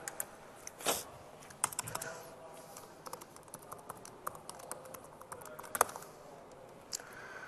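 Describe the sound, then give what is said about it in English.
Someone types a password on a computer keyboard with many light, irregular key clicks. The tapping is mostly faint, with a few sharper, louder strokes. “I think I typed the password wrong.”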